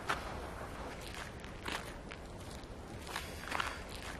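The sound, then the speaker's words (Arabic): Footsteps walking on snow, a steady series of soft crunching steps at an even pace, faint and with no voices. “يعني المشي على الثلج مش بسيط بس لازم يكون في توازن انت ماشي”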